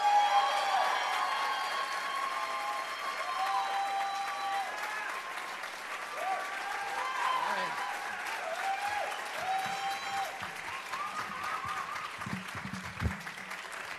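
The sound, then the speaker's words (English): An audience applauds a storytelling performance, with dense, steady clapping that fills the whole stretch at an even level and a few faint voices mixed in. “Make a lot of noise for Bill Thompson and his story, Little Moments, ladies and gentlemen.”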